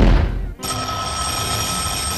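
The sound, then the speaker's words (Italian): A telephone bell rings loudly and continuously, a bright, steady ringing that follows a short burst of louder noise at the start, with no talk over it. “Questo, se non ci abbassano questa suoneria della FIP, bisogna abbassare, non resistiamo.”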